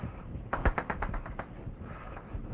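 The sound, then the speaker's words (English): Chalk marks a board as a diagram is drawn during a mathematics lecture, a quick burst of sharp, rapid taps followed by softer, quieter scraping. “let's see if I can draw this.”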